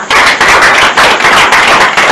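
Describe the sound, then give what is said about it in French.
A church audience applauds for a brother with loud, dense clapping in quick overlapping bursts and brief dips in between. “Applaudissons pour le frère.”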